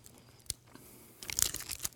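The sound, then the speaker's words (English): Biting and chewing a white chocolate bar with Fruity Pebbles cereal baked in. A couple of faint, isolated crunches are followed by a dense run of crisp crackles. “I got to eat fast. It's like white chocolate with Fruity Pebbles baked in.”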